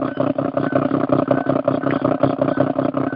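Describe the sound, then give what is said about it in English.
A pump pumping sand out, producing a steady, rhythmic chugging of many fast mechanical pulses with a rough, clattering edge. The beat stays regular and moderately loud throughout, with no voices. “That's probably the pump on whatever Kano's got going, pumping the sand out.”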